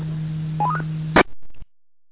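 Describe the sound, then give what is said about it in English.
Reset beep tones from an amateur radio repeater: a steady low hum, then four short beeps stepping up in pitch, followed by a loud burst and a brief crackle before silence. “Well, we've got reset beep going on. So I'm really going to apologize right now. It's going to interrupt our net”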